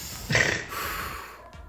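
A deep breath drawn in: a short, noisy rush of air followed by a longer, softer, steady inhale, fairly quiet, with no talk.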